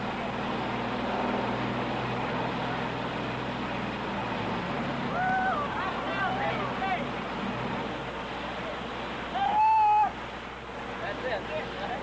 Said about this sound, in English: And I think perhaps the best thing we could do, Granville, is just hang this mic over and pick up the continual grind of that generator so that we'll be sure and pick it up.